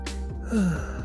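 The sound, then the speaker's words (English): One big, deep breath taken during a relaxation session, a brief airy rush of air followed by a soft voiced tail. “Gotta take a big breath right there.”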